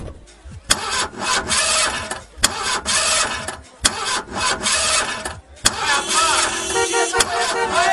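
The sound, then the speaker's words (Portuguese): Engine of a nearly 300-horsepower sports car like Magnum's starts and revs in several loud, separate bursts with brief gaps between them. “300 cavalos. Vai de 0 a 100 em menos de 6 segundos. Ai, eu não acredito, você tem uma igualzinha do Magnum. Ai, meu Deus, eu sempre quis andar numa máquina dessas.”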